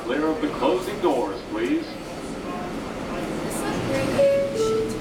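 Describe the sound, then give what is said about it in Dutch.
A subway train rides to Brooklyn with a steady low rumble and whoosh, and a person talks over it. “Ik zit in een metro naar Brooklyn om heel bijzondere stadsgenoten te gaan opzoeken.”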